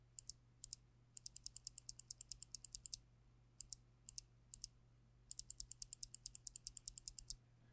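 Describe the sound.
Rapid keystrokes on Box Pink clicky mechanical keyboard switches, medium click bar, come in quick bursts of many sharp, bright clicks separated by short pauses, with nothing else heard.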